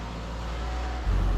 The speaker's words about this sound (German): Lenkrad festhalten und jetzt fahren wir hier runter.